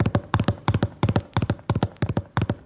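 A horse galloping: fast, steady hoofbeats falling in rapid repeated clusters, crisp and even in loudness throughout, with no voices.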